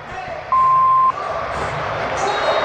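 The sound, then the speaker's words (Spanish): A referee's whistle starts a football match with a single long, steady, shrill blast over a continuous crowd murmur. “Pita el árbitro. ¡Ay! Fútbol por Newell. Comienza este encuentro.”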